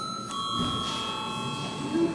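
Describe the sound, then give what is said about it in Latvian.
An electric bell is rung to call a vote in a parliamentary chamber. It gives a steady, continuous ring that holds level throughout, over a low background murmur. “Lūdzu zvanu.”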